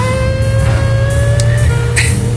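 An old Buick Fiat Stilo car accelerates, its low engine rumble steady and loud, with a thin whining tone gradually climbing above it.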